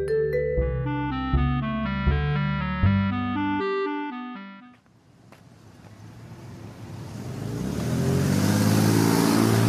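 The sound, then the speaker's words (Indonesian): Busy Sunday road traffic with passing vehicles, a broad engine roar that swells in after music in the first half and grows steadily louder toward the end. “Wah, jalannya ramai ya, ya. Iya, nak. Apalagi ini hari Minggu. Jalanan sangat ramai kendaraan.”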